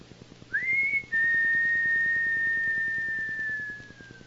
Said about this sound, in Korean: 그리고 바람 부는 거리에 웅크리고 앉아 휘파람을 붑니다.